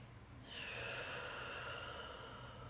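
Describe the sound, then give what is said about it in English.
A deep breath taken together: a soft, airy rush of air that begins about half a second in and holds steady and faint for roughly two seconds, with no talk over it. “Let's all just take a deep breath together.”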